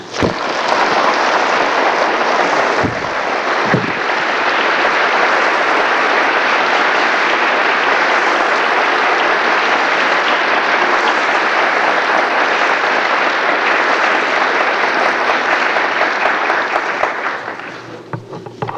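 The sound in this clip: Warm audience applause welcoming a guest speaker before a lecture: dense, even clapping that stays loud and steady for about seventeen seconds before tapering off at the end.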